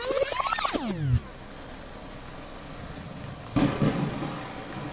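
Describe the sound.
Heavy rain hisses steadily, and a loud burst of thunder breaks in past the midpoint. A short, falling tonal sweep opens the sound before the rain settles in.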